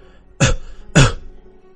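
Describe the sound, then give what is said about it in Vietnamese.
Two short, dry coughs from a person, about half a second apart, each a sharp burst with quiet between them. “Vừa ho khan, Triệu Lĩnh vừa lấy ra một viên đan dược ném qua cho Từ Ngôn.”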